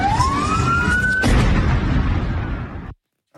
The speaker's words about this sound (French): Voilà, donc c'était un son effectivement très court. Je ne savais pas que c'était aussi court que ça. C'était le son de l'explosion.